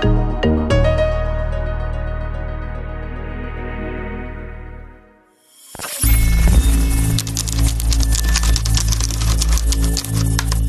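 Rapid clatter of typing on a computer keyboard, with many dense keystrokes in a loud, busy stream. Before it, a sustained ringing tone fades out over about five seconds.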